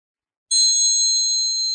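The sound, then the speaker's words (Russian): A church bell rings with a single bright, high strike that starts abruptly and sustains as a steady, slowly fading tone. “Звон колокольный летит сквозь столетия.”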